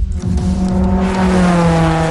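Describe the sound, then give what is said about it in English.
Race cars roar past on the final lap around a track with blind turns. The loud, steady engine drone holds sustained tones with a buzzy rumble beneath, and no voices are heard. “And we are coming off turn four with the final lap barely inches separating these vehicles from the wall. Blind turns at nearly 60 kilometers per hour.”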